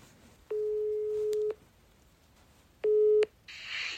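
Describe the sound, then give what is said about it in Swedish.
A telephone ringing tone sounds while a call is being placed. It comes as two steady, mid-pitched electronic tones, the first about a second long and the second shorter, separated by quiet line hiss. “får jag ringa Pontus snabbt bara?”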